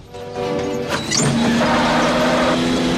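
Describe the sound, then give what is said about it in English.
An estate car braking sharply and swerving behind a truck: a loud engine roar builds, then a sustained, steady tonal squeal holds over the noise to the end. “the estate car swerves dramatically”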